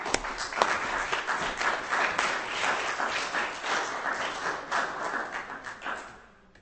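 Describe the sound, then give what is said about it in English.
An audience applauds a performer at a reading with many quick, overlapping claps. The clapping holds a steady, fairly soft level and fades away at the end. “Give him a hand. Do it.”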